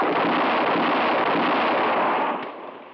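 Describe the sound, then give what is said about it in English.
A rifle shot from a gunfight with men crouched behind a wagon bursts out as a loud, dense roar that holds steady, then fades away over the final half second, with no voices. “You got him. You know how to use a rifle.”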